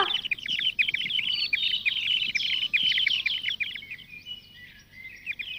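A pet bird in a forest gives rapid, high chirps, many in quick succession, bright and continuous across the whole stretch with no voices.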